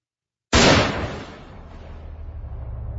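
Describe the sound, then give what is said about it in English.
A concussion grenade detonates in weightlessness with one sudden, loud, sharp blast, which fades into a low, steady rumble that keeps going to the end. “bouncing off the ceiling, off the far wall, tumbling through the weightlessness, and straight down into his lap. Concussion grenade.”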